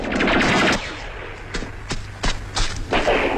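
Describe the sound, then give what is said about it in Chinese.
Gunfire in a woodland fight against enemy soldiers: a dense, rapid burst opens loudly, then several sharp, separate shots crack at irregular intervals, with no talk. “在树林里隐蔽着的孩子们听到枪声”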